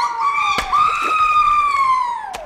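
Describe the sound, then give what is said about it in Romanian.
A rooster crows in a children's story: one sustained, harmonic, nasal call lasting about two and a half seconds. It holds a fairly steady pitch, rises slightly, then drops away at the end. “Ce înseamnă asta? Ce s-a auzit? Un cocoș? Da.”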